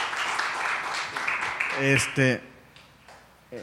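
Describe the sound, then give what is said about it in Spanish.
An audience breaks into applause, a dense wash of clapping that fades within a couple of seconds before people talk. “Sí, un aplauso. Un aplauso.”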